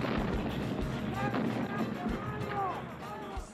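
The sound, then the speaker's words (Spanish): Artillery gunfire on a command to fire in the Falklands war: a few dull, low booms over a continuous roar of battle noise, with shouting voices mixed into the din. “¡Rodríguez! ¡Del positivo 10! ¡Fuego! ¡Fuego!”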